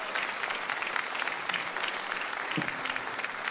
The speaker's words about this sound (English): Can we give all of those people a round of applause?